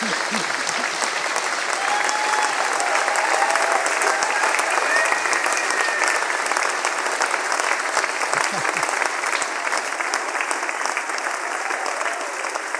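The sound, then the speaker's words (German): Sustained audience applause: a thick, continuous roar of clapping that stays loud and even throughout, with no clear breaks or build. “Dafür kriegst du so einen Applaus.”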